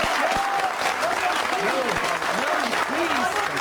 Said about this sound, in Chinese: 为如此宏伟的规划而喝彩吧，先生们！